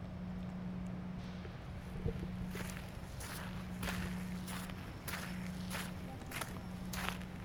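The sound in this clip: Footsteps of people walking outdoors in an industrial area, many even steps at a steady pace over a constant low hum, with no talking.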